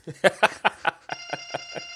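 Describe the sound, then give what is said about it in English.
A mobile phone rings with an electronic ringtone. Quick rhythmic pulses repeat throughout, and sustained bright high tones join them partway through. “Oh, there's my phone ringing, so just ignore that.”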